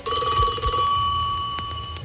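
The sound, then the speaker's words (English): A telephone bell rings in one bright, steady, unbroken peal lasting about two seconds. It sounds loud and alone, with a couple of dull low thumps early on. “Just remember to answer your telephone like this.”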